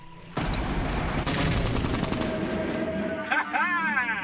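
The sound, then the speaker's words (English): Rapid machine-gun fire from a film's special-effects recreation of a World War II aerial dogfight over Italy: a loud, dense, rattling burst cuts in abruptly over a roaring drone and ends with a wavering, whining tone. “its dazzling special effects recreate dogfights between the all-black air unit and their German enemies.”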